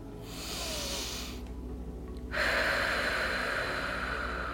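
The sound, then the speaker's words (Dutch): Long, forceful exhalation pushed out through the mouth as if blowing up a balloon, emptying the lungs completely. Breathy rushing air comes in two stretches, the second louder and longer, over a faint steady low hum. “Ga net zo lang door met blazen, zodat je laatste adem je longen verlaten heeft.”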